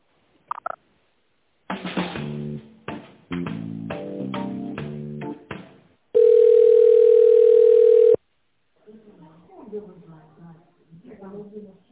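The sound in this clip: A telephone tone sounds while a call to an organization's office is being transferred: a string of short electronic notes, then a single loud, steady tone lasting about two seconds, followed by a voice talking.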